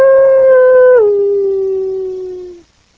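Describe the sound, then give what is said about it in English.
A human voice imitates a coyote howl: one long, loud, sustained tonal note that steps down partway through, then slowly sags in pitch before cutting off. “That wasn't nothing but a coyote. I don't know if that coyote is over or not. I think it might have." He said, "That's a coyote.”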